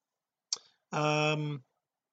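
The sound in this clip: A single computer mouse click, a crisp brief tick alone in silence, followed a moment later by a short, steady buzzing tone.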